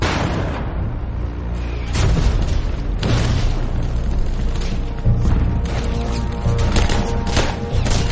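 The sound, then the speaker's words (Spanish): American forces fire white phosphorus shells to lay a smoke screen covering their advance on a bridge in wartime. Several heavy booms punch through a continuous loud rumble of artillery fire. “Los estadounidenses lanzan proyectiles de fósforo blanco para crear una pantalla de humo que proteja su avance.”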